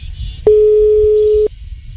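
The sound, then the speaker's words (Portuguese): A telephone call rings unanswered, heard as a single steady mid-pitched ringback tone lasting about a second over faint low background noise. “Atender não, senhor? JD Produções. Tá atendendo não, né?”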